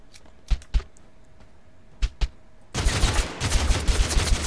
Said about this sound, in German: Verdammt, da schießt einer.